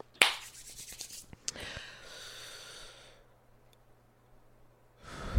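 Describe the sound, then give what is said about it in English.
A person takes a deep breath: an airy intake and then a long, soft, breathy exhale, faint and with a few small clicks, and no talking. “I'm gonna take a deep breath.”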